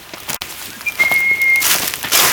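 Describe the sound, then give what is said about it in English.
A person whistles to draw the attention of cats, producing one steady, high note of under a second that stands out over continuous background noise. “I have to keep whistling because I have to keep their attention.”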